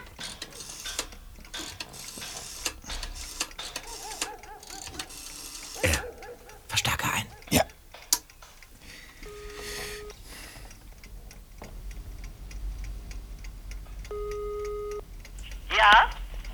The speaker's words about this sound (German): Ich werde sie gleich anrufen.